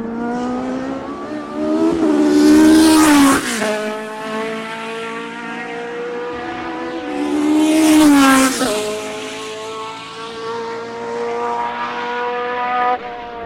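Formula 1 race cars come out of a corner on a Grand Prix circuit. Two loud, high-pitched engine pass-bys swell and then drop in pitch, with a steady engine drone between them.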